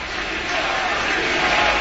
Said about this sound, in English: He is being carted off in a corner tunnel on the near side, the Commander sideline, getting a ovation from the crowd.